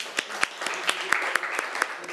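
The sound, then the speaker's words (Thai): Students in a classroom clapping for a classmate, a scattered run of handclaps in an uneven rhythm, moderately loud and continuing throughout. “นักเรียนปรบมือให้เพื่อนหน่อย”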